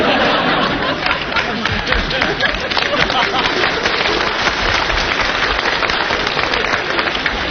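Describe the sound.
Audience applause at a live comedy stage performance: dense, steady clapping that runs unbroken at an even loudness through the whole stretch.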